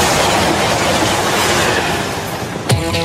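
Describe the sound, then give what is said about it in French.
A TGV high-speed train roars with a loud, steady, dense rumble and a faint clickety-clack of wheels. The noise eases slightly toward the end, where a brief sharp accent with a ringing tone cuts in. “Le TGV, il va enfin s'arrêter.”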